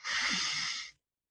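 A single deep breath taken during a guided healing session: a steady, airy hiss lasting just under a second that cuts off abruptly into silence, with no talking.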